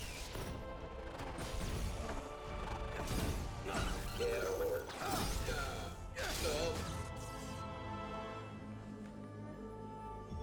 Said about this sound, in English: The sword makes a noise.